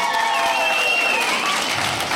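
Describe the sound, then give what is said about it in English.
A live audience claps in a dense, steady wash of applause that holds at an even level throughout, with no single claps standing out. “Clap if you don't like cats.”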